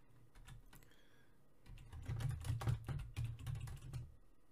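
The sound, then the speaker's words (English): Typing a search on a computer keyboard: many quick, faint key taps in an uneven rapid rhythm, growing a little denser and louder partway through, with no voices. “Actually, we could probably just type in Conway.”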